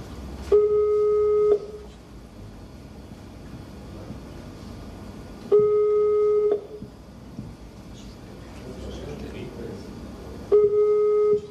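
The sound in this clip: Three steady ringback tones, each about a second long and evenly spaced several seconds apart, sound over a low background hiss as a phone call is placed to a business.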